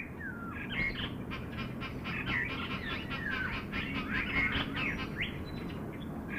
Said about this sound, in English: We get almost all the birds that are this time of year in the breeding season calling and vocalizing.